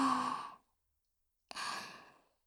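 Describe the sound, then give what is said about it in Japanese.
Deep breathing: two long, airy breaths, one at the start and another after a second of silence, each rushing in fairly loud and fading out smoothly. “君は深呼吸。吸って。吐いて。吸って。吐いて。”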